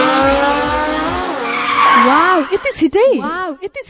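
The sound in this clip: A Pulsar motorbike skids and speeds off as a sound effect: a loud tire screech with engine whine sweeping up and down in pitch, then a run of quick, choppy revs as it pulls away.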